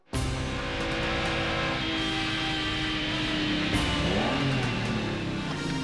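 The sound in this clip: A car engine runs as a loud, steady drone that fills the whole clip, with a few tonal lines shifting and bending in pitch near the end. No voices are heard over it.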